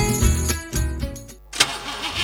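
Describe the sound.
A car engine starting up: a dense mechanical rumble with a sudden loud burst partway through, then a rougher running sound, no voices.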